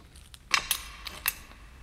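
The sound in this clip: A watch and a set of keys laid down on a table make a few light, sharp metallic clinks spaced apart, quiet and with no talk over them.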